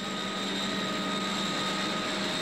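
A Heron aircraft in flight, its engines giving a steady, loud drone with a sustained high whine over a constant low hum, unchanging throughout.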